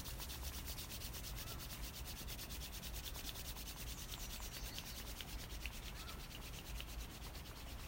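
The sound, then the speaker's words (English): Hands rubbing together steadily during a guided foot self-massage, a soft, dry friction that continues unbroken and faint for the whole stretch, with no talking. “Rubbing the hands again.”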